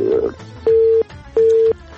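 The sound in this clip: Telephone tone after a dropped phone-in call: two loud, steady mid-pitched beeps of equal length separated by a short gap, preceded by a brief burst of noise.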